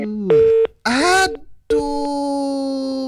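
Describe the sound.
Telephone tones on a radio call-in line that drops out: a few short steady harmonic tones, a brief voice-like burst, then one long unbroken tone that holds to the end.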